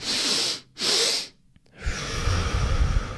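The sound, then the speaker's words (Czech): A breathing exercise: two audible inhales through the nose, one normal and one quicker, then a long, steady exhale that trails off softly. No voices are present. “dvojitý, jeden normální nádech a další druh, rychlej nádech a potom dlouhý vlastně výdech.”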